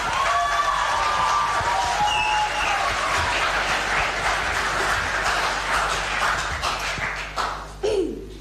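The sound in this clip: An audience applauds as a student speaker in the korimako category returns to the stage at an impromptu speaking event. Dense, sustained clapping stays steady throughout, then thins and tapers in the final second.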